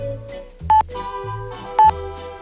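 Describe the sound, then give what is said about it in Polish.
Two short, bright electronic pips of a Polish radio hourly time signal, spaced about a second apart over a sustained tonal background. “Wszyscy kojarzymy, znamy sygnał czasu nadawany o pełnej godzinie, takie charakterystyczne piknięcia.”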